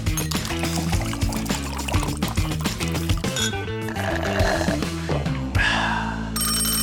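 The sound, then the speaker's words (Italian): An old telephone bell rings with a loud, rapid metallic trill that sustains steadily. “I ragazzi e le ragazze della generazione Z, questo suono probabilmente neanche lo conoscono, sempre che non abbiano scelto la versione sintetica come suoneria del loro smartphone.”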